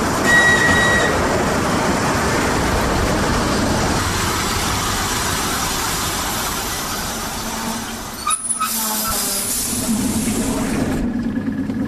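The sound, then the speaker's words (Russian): An electric commuter train pulls into a station platform with a steady, broad rumbling roar. Near the end the noise drops briefly with a clunk, then a quieter hum continues. “Электропоезд Воронеж прибывает на второй путь.”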